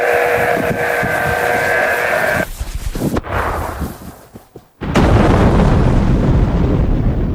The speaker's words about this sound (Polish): To rzekomo dźwięk armaty, która wystrzeliwuje pocisk z prędkością 7-krotnie przekraczającą prędkość dźwięku.